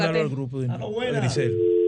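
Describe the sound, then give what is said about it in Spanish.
A steady telephone dial tone after a dropped call sounds over the last half second, following a voice speaking, and holds at one unbroken pitch to the end. “Sí, se me cayó la llamada.”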